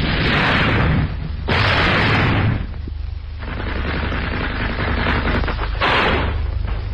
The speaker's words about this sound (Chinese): 战斗打响了，契卡的同志们在向这个反革命黑窝射击。